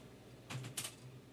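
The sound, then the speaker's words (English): Keystrokes on a computer keyboard, someone typing a six-letter word: a few quick, soft clicks bunched together in a brief burst near the middle, faint against a low steady hum, with no voices. “Yes, it did take me that long to type six letters, by the way.”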